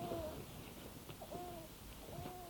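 A sick infant crying, one of several babies poisoned by mercury: three faint, tonal wails rise and hold briefly, separated by short pauses over a low background hiss.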